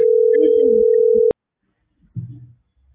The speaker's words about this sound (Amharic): እኔ እየደወልኩኝ ነው። ስልክ ገባ።